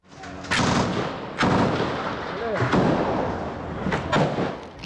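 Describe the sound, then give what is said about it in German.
Gunfire from a 1980s-era rifle used as a machine gun. A few heavy, booming shots are spaced irregularly, each with a long, rumbling tail that fills the gaps between them. “ein Gewehr aus den 80er Jahren. In Bezug auf Leistung und Anzahl der Kugeln ist es die stärkste Waffe,”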